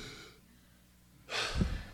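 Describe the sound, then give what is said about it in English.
A single deep breath, loud and breathy, drawn in near the end after a quiet stretch. “Did God give you that breath?”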